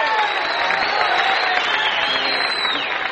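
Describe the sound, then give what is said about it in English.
Sustained audience applause welcoming home a duo of brothers who write and sing country and sacred songs, a dense, steady wash of clapping and crowd noise that holds at an even level throughout. “let's have a fine welcome home hand for Charlie and Ira, the Lubin Brothers.”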